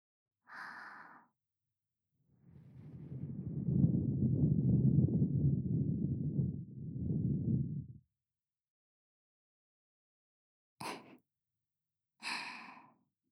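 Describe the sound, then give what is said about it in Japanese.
Soft breath blowing out in a long, steady exhalation lasting several seconds, with a few short breathy sighs before and after it. No words are spoken. “これを待っていたんですよね。息、ふうふうも気持ちよかったでしょう。”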